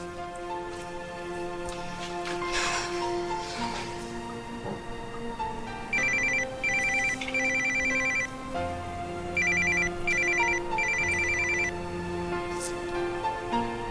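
A telephone rings for an incoming call, an electronic ringtone repeating in short bright bursts over a steady, busy background.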